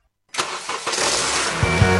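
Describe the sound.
A car engine cranks briefly and catches, then settles into a steady, rough running rumble with no talk.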